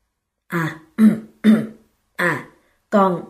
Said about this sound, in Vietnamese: Tôi có thể nghe thấy tiếng cha thở dài nặng nhọc. Ông đằng hắn lấy giọng rồi nói.